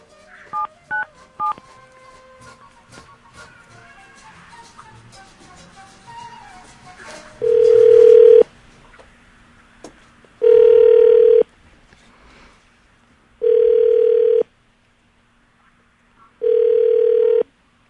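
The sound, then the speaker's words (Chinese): A phone call to a police officer: a quick run of keypad dialing beeps, then the ringback tone of the outgoing call sounding four times, each tone about a second long, separated by silence. “好，好，打给陈警官。”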